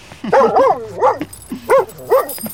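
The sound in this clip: A well-trained pet dog gives several short, high, yelping barks with a whimpering, almost talking tone, loud and clear, spaced unevenly with no talk over them.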